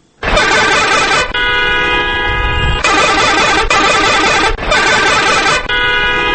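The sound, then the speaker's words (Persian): Loud vehicle horns blaring in city traffic on the streets of Nangarhar, an unbroken wall of overlapping honks with long sustained blasts that alternate between harsh buzzy tones and steadier, clearer notes, with no speech. “این صدای مدهش موترها و وسایطی است که همه روزه در جاده‌های شهر مردم را اذیت می‌نمایند.”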